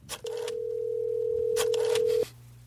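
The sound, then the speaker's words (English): A steady telephone tone from a vintage phone as a call is dialed: one even, unbroken pitch that holds for about two seconds and then cuts off, with brief noise bursts around it. “Hold on, let me call him first. You dial them up. By the way, I love this vintage phone.”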